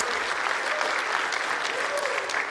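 A church audience applauds to welcome viewers watching at home, a dense, steady wash of clapping from start to end.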